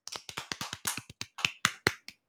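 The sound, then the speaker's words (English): A short run of sharp, separate hand claps at a brisk, fairly steady pace, about a dozen in all, each crisp with a quick decay and nothing else around them. “Let's give a clap.”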